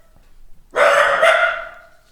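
A dachshund barks at a noise in the stairwell, giving one loud, sharp bark of about a second after a quiet start.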